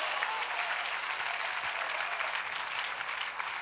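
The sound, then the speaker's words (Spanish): Weak, scattered applause from a church audience, a thin, faint patter of clapping that continues evenly for a few seconds with no voices over it. “Ese aplausito aguado anémico es suyo.”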